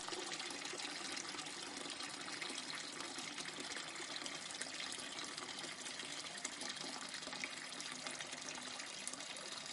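Tap water runs into a kitchen sink as it fills, with small white flowers dropped into the water. The flow makes a continuous, even gushing rush with no breaks.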